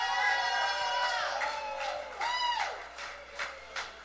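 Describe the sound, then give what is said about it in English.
An audience cheers and whoops for a performer, with high hollers and shouts rising over a steady crowd roar that fades a little toward the end. “let's just all fucking give a big round of applause”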